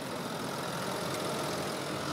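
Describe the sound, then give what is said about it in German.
A tractor engine runs as a steady, faint, rough drone during a grain harvest in the fields, with no voices. “Christians Sohn Paul, 11 Jahre alt, fährt den Traktor”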